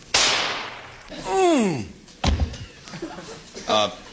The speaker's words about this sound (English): As a matter of fact, I've got a gun right here. If you'd like to just kind of take a shot at me, it's only a .22, but just point it right at my chest and let me have it.